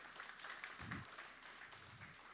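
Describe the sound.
Faint, continuous applause from an audience during a Christian gospel talk, a steady wash of clapping without breaks.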